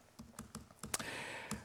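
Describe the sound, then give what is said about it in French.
Computer keyboard keys pressed during a presentation, heard as a few soft, quiet clicks in an uneven rhythm. “Oups, pardon, je n'appuie pas sur la bonne touche.”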